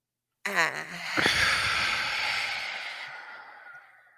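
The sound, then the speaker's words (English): A deep breath drawn in through the airways, a breathy rush of air lasting a few seconds that gradually thins and fades, with a brief voiced sound at the very start. “Take a deep breath in.”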